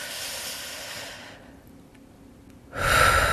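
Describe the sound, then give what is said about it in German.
A deep breath drawn in slowly and fully into the belly, heard as a breathy rush of air that fades into a quieter pause, then returns as a stronger, louder surge of air at the end. “versuch doch einfach mal ganz tief einzuatmen, schön in den Bauch”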